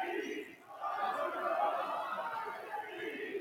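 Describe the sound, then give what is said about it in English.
Warrior fans in rival sections of the crowd chant against each other, a dense, sustained roar of many voices that dips briefly early on, then holds steady and loud. “Right, we got dueling chants from the Warrior crowd here.”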